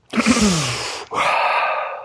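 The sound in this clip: A deep breath drawn in, a long breathy rush that swells quickly and holds for about a second, then a short pause before a second long breathy sound of similar strength.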